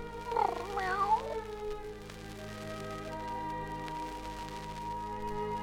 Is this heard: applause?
no